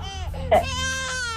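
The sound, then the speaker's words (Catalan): A baby crying sound effect is inserted to mark a dramatic moment: one short, wavering, high-pitched wail with strong harmonic overtones, lasting just over a second. “és que tenia ganes de posar això del nen plorant. Sí, és que m'agrada posar el bebè plorant quan hi ha drames”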